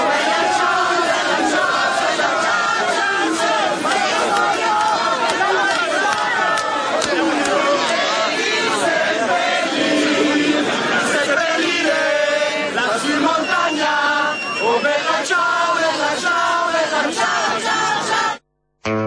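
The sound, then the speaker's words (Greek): Italian crowd celebrating Berlusconi's departure and singing Bella Ciao: loud, massed voices sing and shout together continuously, then the sound cuts off abruptly just before the end. “Αυτοί είναι οι Ιταλοί, οι οποίοι πανηγυρίζουν επειδή έφυγε ο Μπερλουσκόνη και τραγουδάνε τον Μπελατσάο.”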